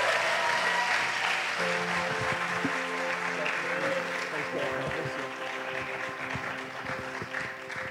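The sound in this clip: A church audience applauds to welcome a visiting pastor, with steady, dense clapping that carries on throughout and sustained musical tones underneath.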